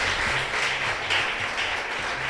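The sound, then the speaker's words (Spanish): A church audience claps during a Spanish-language service, a dense, continuous patter of many hands at a steady level. “¿Le puede dar palmas al Rey de Reyes y señores,”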